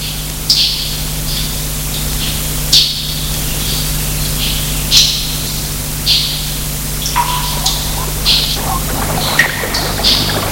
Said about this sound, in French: Gilbert entend comme un bruit d'eau.